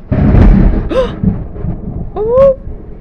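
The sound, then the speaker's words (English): Thunder outside a window during a storm opens with a low, heavy rumble, followed by a couple of brief vocal sounds from a person. “But I ain't afraid of the thunder.”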